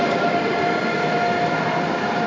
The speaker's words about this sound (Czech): Hala pražského hlavního nádraží dnes popolední. Lidé čekají na svůj vlak.